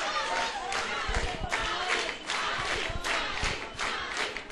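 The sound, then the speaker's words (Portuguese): Applause and cheering from a crowd greet a professor. Dense, steady clapping continues throughout, mixed with shouts. “Aristóteles, que tem que receber as palmas com toda a energia pelo trabalho magnífico realizado.”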